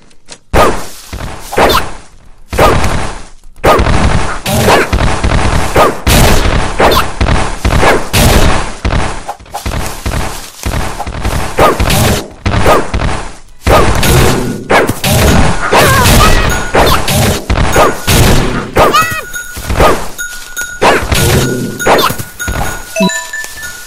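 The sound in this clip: Heavy blade weapon attacks in a video game with dragons: many rapid, loud strikes, crashes and thuds in a dense barrage, with bright metallic chiming and tinkling near the end.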